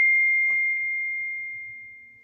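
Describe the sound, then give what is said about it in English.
A phone text message notification sounds as a single electronic tone that holds steady at one pitch and slowly fades. “Who texted you? My mom.”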